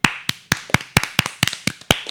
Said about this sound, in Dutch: Ik denk dat het een applaus waard is.